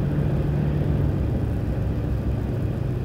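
A car driving along gives off a steady, low rumble with a constant whir of engine and road noise. It runs without a break and stays even in loudness, with no talk over it.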